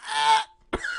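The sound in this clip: Someone clears their throat with cheese stuck in it: a drawn-out, voiced rasping hum, a short gap, then one sharp, forceful hack that trails into a strained, breathy tone.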